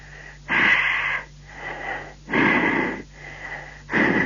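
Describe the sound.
Breathless wheezing and panting from a caller on a phone line: loud, rasping breaths alternate with softer ones in a steady heaving rhythm, with no words spoken.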